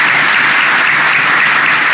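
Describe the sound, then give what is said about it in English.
Loud, sustained applause from an audience at a speech honoring a veterans' IT training and certification program. The clapping forms a dense, even roar that holds steady the whole time, with no voices over it. “So let's just take a moment to give them a round of applause for this excellent work.”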